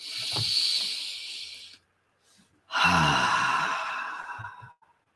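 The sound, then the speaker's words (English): A deep breath taken during a group breathing exercise: two long, breathy hisses with a pause between them, a sharper intake followed by a fuller, sighing release, with no talk. “Let's take a breath together.”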